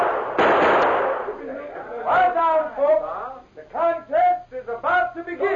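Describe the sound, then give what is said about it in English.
A gun fired into the air by a sheriff to start a shooting contest: one sharp, loud burst with a noisy trailing decay, followed by several voices talking. “until the sheriff, after looking at his watch, raised his gun and fired into the air.”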